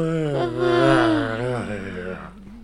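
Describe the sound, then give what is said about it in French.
An actor in a stage play gives one long, drawn-out voiced yawn. Its wavering pitch sinks toward the end and it trails off after about two seconds. “Maintenant, je vais pouvoir bailler tranquillement.”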